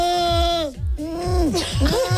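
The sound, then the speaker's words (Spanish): A person's voice imitates a bleating goat as a singing warm-up, producing a few quavering, wobbling bursts of nasal, wavering pitch. “Sí, que parezco una cabra huérfana”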